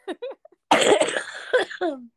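A person coughs in one rough, noisy burst, with short voiced sounds just before and after it, all fairly loud against silence.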